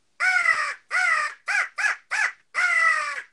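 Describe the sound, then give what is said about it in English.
Six harsh caws blown on a handheld crow call used to make turkeys gobble: two long caws, three quick short ones, then a final long caw, all loud and nasal. “And I got a crow call here. It may be a little loud,”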